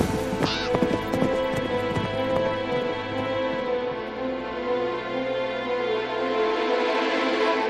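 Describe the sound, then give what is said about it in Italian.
Horse hooves clip-clop as riders set off, a brisk patter in the first second that gives way to a steady tonal backdrop that carries on to the end. “monta in sella e non ci pensare. Coraggio, amico, si parte, si torna a casa.”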